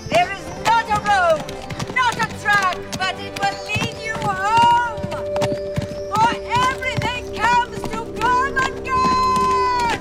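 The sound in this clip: Horse hooves clip-clopping as a rider sets out across open wilderness at night, a busy run of sharp, repeated hoof strikes layered over a dense tonal background that stays loud throughout.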